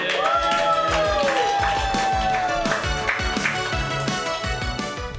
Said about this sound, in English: Your next comedian, put your hands together for Rafi Sussman!